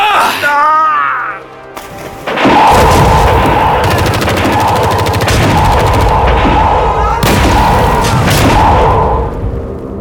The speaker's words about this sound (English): Men, open fire!